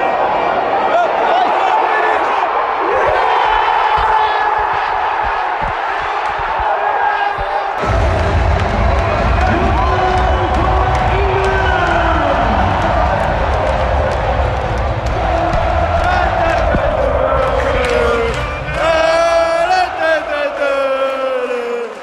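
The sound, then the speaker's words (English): Football crowd reacting to a goal: a tense, steady crowd murmur gives way suddenly to a loud, sustained roar of cheering that carries on throughout, with a voice heard over the noise. “And then there's almost a split second of silence before the goal is scored. Just listen to the beauty of this.”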